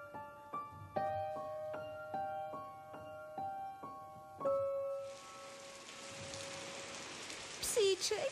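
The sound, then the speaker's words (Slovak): Rain falls while laundry hangs outside to dry. A steady, even hiss of rainfall starts after a few plucked musical notes and carries on to the end, where a brief sharp sound cuts in. “Veď zasa prší. Zmokne nám bielizeň.”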